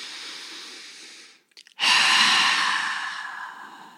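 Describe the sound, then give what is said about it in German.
Deep breathing during a guided relaxation exercise, sitting upright with eyes closed. A long airy breath breaks off in a brief silence, then a loud, sigh-like exhale slowly fades away. “Richte dich einmal auf, nimm nochmal 2 Atemzüge.”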